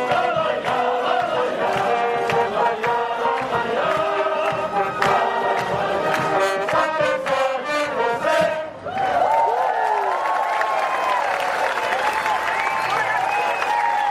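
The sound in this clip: Artists and audience sing together at a protest, many voices carrying a melody in unison with loud, sustained crowd sound throughout. The vocal texture shifts partway through.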